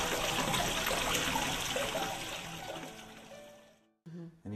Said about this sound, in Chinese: 闹市中一年四季听到潺潺的流水声，还真是很惬意的呢。